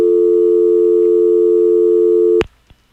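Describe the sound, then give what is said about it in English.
A steady, loud telephone tone on a radio call-in line after a dropped call holds unbroken for over two seconds, then cuts off abruptly with a click, followed by a faint tap. “We just tried to take a call, but it got dropped.”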